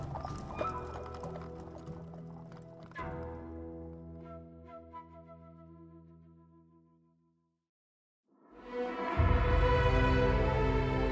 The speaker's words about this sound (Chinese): 一辆马车突兀地出现在宫外的官道上，急速地朝着重阳门而来。